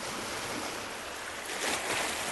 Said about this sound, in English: it lulls users into rest and relaxation by way of ambient noise, from lapping waves on the beach